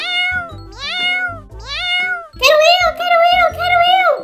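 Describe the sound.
A cat meows within a children's story, several drawn-out, wavering meows in a row. The later meows are louder and higher.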